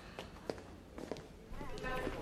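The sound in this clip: Footsteps of people walking through a hospital, a few dull, uneven steps with voices talking over them.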